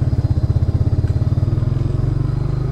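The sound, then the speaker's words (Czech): A motorcycle engine runs on a night ride home out of the jungle. It keeps a loud, low, steady thumping beat throughout, and the pulse quickens slightly toward the end. “zpátky na motorce, nasedáme. A jedeme z džungle domů.”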